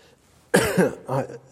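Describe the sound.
Coughing from a tickle in the throat: two short, rough throaty bursts after near silence, the second softer and more voiced than the first.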